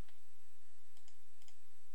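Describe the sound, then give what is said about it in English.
A computer mouse clicks a few times, soft and sparse, with quiet gaps between them, during a right-click on a folder in a software project. “Right-click on the controllers folder, and choose Add Controller.”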